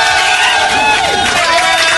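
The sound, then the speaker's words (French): A studio crowd cheering and applauding in a standing ovation during a radio show, a dense loud roar of voices and shouts with whoops rising and falling throughout. “Je crois que là on peut lui faire une standing ovation. Il est là, il réclame des applaudissements.”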